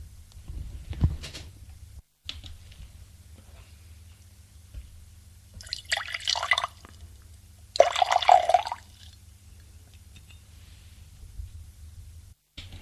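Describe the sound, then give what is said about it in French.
A drink being poured: two short splashy bursts of liquid, the second slightly louder, with only a faint low hum and near silence around them. “Jacques s'arrête pour se servir à boire.”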